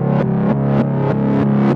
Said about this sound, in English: So this right here is a reverse sample of the pluck. So if I play that, it sounds like this.